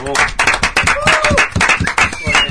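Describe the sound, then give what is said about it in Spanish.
Applause from a small group greeting a returning music program, with uneven bursts of clapping and voices calling out over it, loud and lively throughout. “Señoras y señores, volvimos. Un aplauso.”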